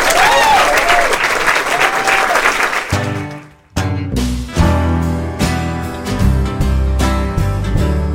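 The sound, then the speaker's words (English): Loud audience applause and cheering welcome two bands to the stage at a live concert. The clapping fills the first three seconds, then drops away as full band music begins. “Please give a warm welcome to Calexico and Iron and Wine.”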